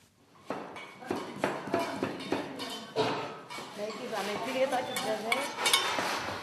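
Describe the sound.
Onions and tomatoes chopped by hand in a shared kitchen in Tripoli, with a few sharp knocks and clattering utensils, followed by busier clatter as women's voices talk over it.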